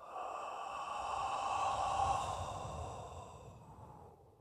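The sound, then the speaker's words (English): One long, deep exhaled breath, a soft and breathy rush of air that swells gently and then tapers off over about four seconds, heard alone and fairly faint. “taking a deep breath. And exhale.”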